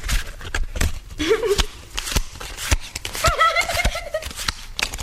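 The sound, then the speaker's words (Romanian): Playing cards shuffled by hand before a game of War: a run of crisp, rapid riffling clicks and rustles, with brief bits of voice mixed in. “Așa, dă-le încoace să le amestec!”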